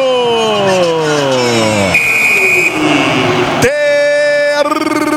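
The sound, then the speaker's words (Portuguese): A referee's whistle ends a football match with a short, shrill, high blast that cuts through loud, excited commentary from a sports announcer, whose voice carries on around it. “quando nesse momento apita o árbitro!”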